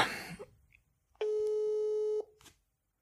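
A telephone ringback tone sounds once while a call is being placed: a steady, buzzy tone held for about a second, preceded by a short burst of rustling noise.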